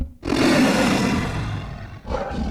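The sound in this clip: A huge video game creature roar, built by layering an actor's voice with a bear and a tiger, comes as one long, loud, rough growl. A shorter second roar follows after a brief break.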